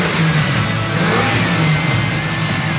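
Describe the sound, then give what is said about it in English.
Loud engine roar from a heavily modified 86 car being revved, a dense, rumbling drone held steadily through the whole clip with no voices. “Let's hear it. Rev it up.”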